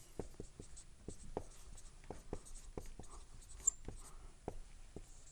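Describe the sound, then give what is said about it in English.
A word is written by hand during a Bible lecture: many short, scratchy strokes in an irregular rhythm, fairly faint. “So let me write this word down.”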